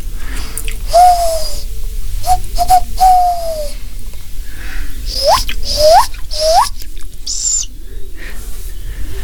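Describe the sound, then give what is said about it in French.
Tawny owl chicks, two tiny and one a little bigger, calling for their mother. Several thin, squeaky whistled calls come first, then three sharp rising squeals and a brief higher note, over a low rumbling background. “Trois chouettes hulottes. Il y a deux bébés, tout petits petits. Et une un tout petit peu plus grande. Voilà, on les entend appeler leur maman.”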